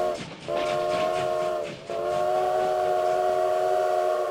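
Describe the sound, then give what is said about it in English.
A theme park train arriving at a station sounds two loud whistle blasts, each a steady multi-tone chord. The first is shorter, and after a brief break the second holds much longer. “The Disneyland Limited now arriving from a trip around Walt Disney's Magic Kingdom.”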